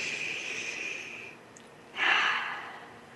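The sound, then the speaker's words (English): A deep human breath: a long, steady airy inhale, a short pause, then a louder, breathy exhale that fades away, with no other sounds. “I invite you to take just a deep breath.”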